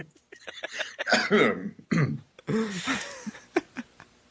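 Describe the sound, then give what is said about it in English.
Several people cough on cue during an online role-playing game session: a ragged run of many throaty coughs and throat-clearing sounds, some overlapping, that thins out into a few sharp single coughs. “Cross our arms, turn our heads, and cough.”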